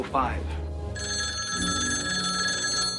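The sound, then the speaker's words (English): Telephone ringing, a bright, steady electronic bell tone that starts after a short moment and continues to the end, with a voice heard briefly at the start. “Ray gets up slowly and answers the phone”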